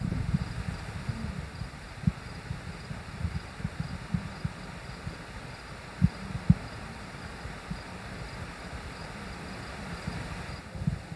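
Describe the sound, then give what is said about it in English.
Insects and a nearby stream fill a burned landscape after a fire, heard as a steady soft wash of noise with a faint insect drone and a few low thumps, without talk. “I hear some insects. I hear the stream not far from us.”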